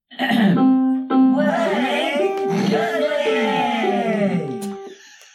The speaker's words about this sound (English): I forgot it started with the throat clearing.